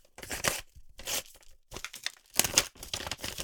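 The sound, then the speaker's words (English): Paper ripping as a card envelope is torn open: a few short, crinkly bursts of tearing in quick succession, separated by brief pauses. “Wait, is that a card? I don't want it. Just open it. All right, fine.”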